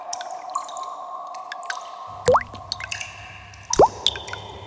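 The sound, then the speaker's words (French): Water drops dripping inside an underground cave: two loud, clear plinks with a quick upward pitch sweep stand out, amid a few fainter, scattered drips over a quiet background. “Dans la grotte, on n'entend que les gouttes d'eau. Écoute. Tu entends le bruit que font les gouttes d'eau ?”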